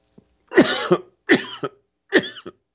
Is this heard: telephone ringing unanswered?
no